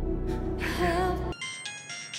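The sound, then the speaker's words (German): A mobile phone rings with a bright, high electronic tone that breaks off and resumes in short sections. It cuts in abruptly after a denser, lower-pitched passage. “Oh, Mist, mein Telefon.”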